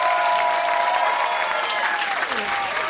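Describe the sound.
An audience applauds and cheers for comedian Jen Kirkman: dense, steady clapping for about three seconds, with a few voices calling out above it.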